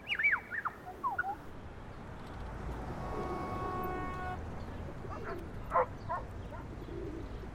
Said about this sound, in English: I can hear the city sounds now. Gee, I guess I never really heard how different they are from sounds on the farm.